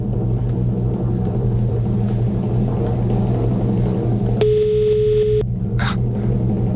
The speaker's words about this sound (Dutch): Zou ik maar gewoon bellen? Ik heb het nummer van jou gekregen. Ik hoop dat u opneemt, dat zou wel mooi zijn.